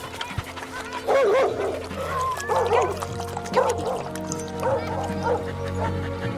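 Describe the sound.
A male dog yips and whines in several short bursts of wavering, high-pitched cries, scattered across a steady low background hum.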